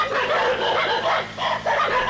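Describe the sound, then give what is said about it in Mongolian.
Dogs bark and growl continuously beside a dwelling while wolves attack a sheep flock. The loud, dense sound overlaps into a steady rough din with no clear separate barks. “Сууцны зүүн талд нохойд үргэлжилэн хуусан архирцсаар байлаа.”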